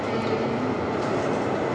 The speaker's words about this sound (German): die Weiche war einfach nicht gestellt. Der fährt einfach drüber.